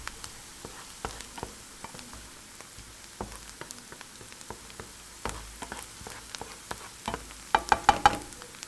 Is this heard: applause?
no